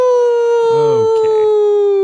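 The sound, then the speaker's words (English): A werewolf howl sound effect holds as a loud, steady, sustained tone with a slight downward drift, while brief voices sound over it midway. “A werewolf wearing leather armor explodes out of the bush, starts charging it.”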